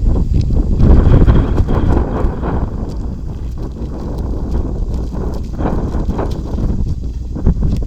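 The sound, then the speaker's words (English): Wind blows outdoors, buffeting the microphone with a loud, continuous low rumble that surges slightly early on and stays steady throughout. “The wind is demanding that I not turn to James 3.”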